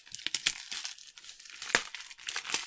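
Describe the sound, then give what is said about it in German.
Gift wrapping rustles and tears as a wrapped carton package is opened, making a run of faint, irregular crinkles broken by a few sharper rips. “es ist ein Tetrapack im Kaufland-Prospekt. Und ich werde es mal öffnen.”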